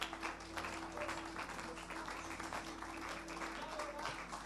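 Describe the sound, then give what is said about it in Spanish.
Applause in praise at a church worship service: faint, steady clapping from an audience, with a soft constant hum underneath. “Fuerte ese aplauso de alabanza al Señor.”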